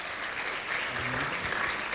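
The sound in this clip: Audience applause welcoming a speaker to the stage, a steady, dense patter of many hands clapping that carries evenly through the whole clip without pause.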